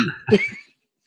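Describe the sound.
A single sneeze: a short breathy lead-in, then one sharp, loud burst that quickly fades into silence.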